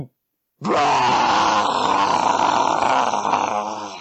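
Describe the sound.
A human voice imitates a dragon's roar in the distance, one loud, long, gravelly groaning growl that starts abruptly after a short silence, holds steady for over three seconds and trails off at the end.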